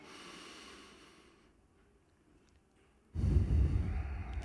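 A deep breath drawn in through the nose during a relaxed belly-breathing exercise: a faint airy breath, a quiet pause, then a loud, rushing, low-pitched inhale that continues to the end.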